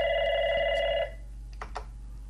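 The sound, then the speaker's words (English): A telephone rings for an incoming call, one steady electronic ring lasting about a second before cutting off, leaving a quiet background with a couple of faint clicks. “Well, we have another caller, I guess. So, well, we will just take the call.”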